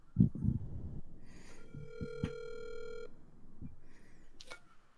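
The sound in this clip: A single electronic ringtone from an incoming call on an online voice call sounds as one steady, buzzy tone lasting about a second. It is faint, with soft thumps and rustles before and after.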